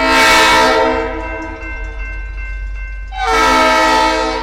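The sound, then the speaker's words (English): A train horn sounds while approaching a street-grade crossing without gates in Ann Arbor: loud, sustained, chord-like blasts at the start and end, a softer held tone between them, and a low rumble of rail traffic throughout. “Federal rules require engineers to sound their horns four times for a total of 15 to 20 seconds as they approach street-grade crossings without gates.”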